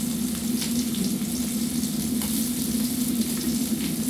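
Sausages sizzle in a frying pan over full heat, a dense, steady hiss of spitting fat that holds an even level throughout, with no voices.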